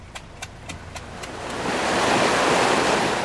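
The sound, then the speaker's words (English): Rushing water noise comes from a pump lifting Nile water for field irrigation in Sudan, a broad, steady roar that swells louder, with a regular ticking heard through its first half. “That noise you can hear is a pump taking the water up to irrigate the fields.”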